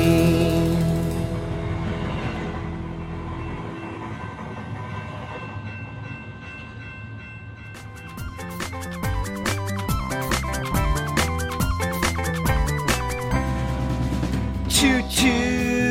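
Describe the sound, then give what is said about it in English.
A passing train, beginning as a smooth, steady rumble that turns into a loud, rhythmic clickety-clack of wheels over rail joints, continuing to the end with no voices. “Choo-choo, here comes a train.”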